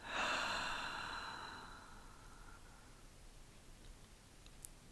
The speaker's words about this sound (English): And one final time, breathe in and out.